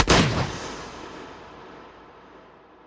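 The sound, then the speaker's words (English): A single shotgun blast firing buckshot at a doe in the woods: one loud, sharp crack that swells into a broad rumble and then fades slowly over the next few seconds. “I raised the shotgun and unloaded buckshot into her.”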